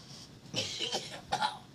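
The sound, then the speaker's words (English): Someone coughs and chokes in a few harsh, quiet bursts separated by short gaps, each one a raspy rasp of breath. “Are you choking?”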